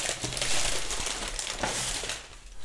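Wrapping paper crinkles and crackles continuously while a gift is being unwrapped, a loud, dense rustle that holds steady and eases slightly near the end.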